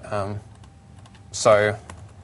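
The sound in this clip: Computer keyboard typing while code is entered in Visual Studio 2010: a run of light, irregular key clicks, with two short bursts of voice at the start and near the end.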